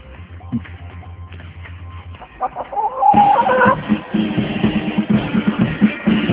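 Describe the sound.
Chickens clucking in a quick, loud run of many short clucks that continues without any talk.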